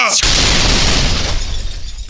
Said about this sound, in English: Step away from the box! Rocket Man, fire!